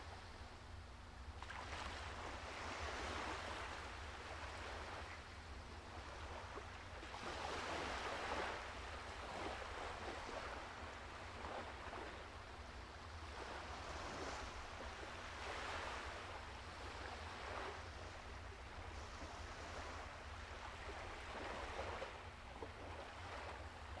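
Ocean waves wash onto a sandy shore in slow, rolling surges that swell and recede every few seconds, with a steady rush of water and some wind noise, and no voices.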